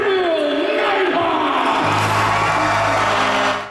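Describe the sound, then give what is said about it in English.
Crowd cheering in a team rink in Niverville as more than 100 people welcome home the Niverville Nighthawks after their Centennial Cup national championship win. A loud, continuous roar of shouts, whoops and cheers holds steady for about three and a half seconds, then cuts off. “More than 100 people in the team rink celebrating their national champions and welcoming back the Niverville Nighthawks after their Centennial Cup win in Prince Edward Island.”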